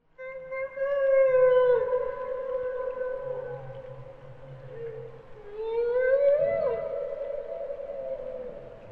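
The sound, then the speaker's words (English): A group of male humpback whales singing: long, harmonic moaning tones that hold and slide, with a pronounced upward swoop midway and fainter, lower tones sounding beneath throughout. “Listen carefully to this group of male humpback whales singing. The song starts with just one whale, but then a second and possibly a third one joins in.”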